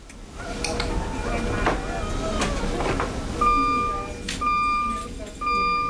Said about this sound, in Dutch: Daar gaat weer een apparaat af. Pleegkundige staat ernaast. Wat hoorden we? Het infuus is leeg, dus dan geeft hij een alarm.